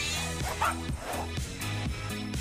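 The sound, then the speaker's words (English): A dog yipping and barking while chasing a cat: repeated short yips and whimpering barks in a steady, bouncy rhythm, moderately loud throughout. “The fairy dog owner is dragged after her fairy dog, who's chasing a fairy cat.”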